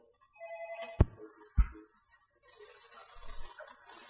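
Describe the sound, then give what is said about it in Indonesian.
Telephone ringing on an incoming call: a short electronic ring of stacked tones, then two sharp clicks as the handset is picked up, followed by faint low rumbling on the line. “Kita coba angkat telepon dulu.”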